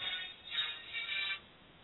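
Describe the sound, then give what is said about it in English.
A phone ringtone plays faintly as a thin electronic melody, swelling twice before fading out. “Sorry, that was my phone.”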